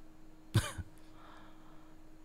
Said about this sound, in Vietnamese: Vừa đọc thỉnh thoảng phải dừng lại ho phát.